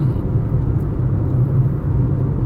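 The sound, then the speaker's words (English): Low, steady rumble inside a car while driving, engine and road noise concentrated in the bass with a soft droning hum, continuous and unchanging, no voices. “obviously I'm in the car”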